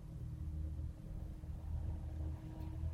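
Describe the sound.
Highway traffic heard from a gravel trail: a faint, steady low rumble of passing vehicles, continuous and unbroken for the whole stretch, with no voices.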